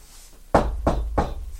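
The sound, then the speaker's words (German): A teacher knocks on a door three times, evenly spaced firm thuds with a hollow low resonance, heard alone without voices. “Dann klopft der Lehrer ohne der.”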